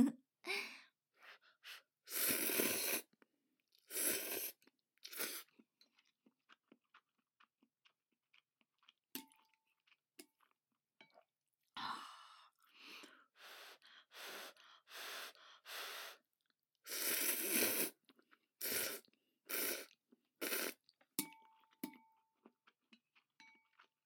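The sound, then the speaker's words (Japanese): Ramen noodles being slurped and eaten, with loud, hissing slurps in many quick bursts separated by quieter chewing and breathing, all without talk. “ラーメンは本当は一気に食べないと麺が伸びて美味しくないと思うんですよ。なんでちょっと今から一気にズゾズゾっといきます”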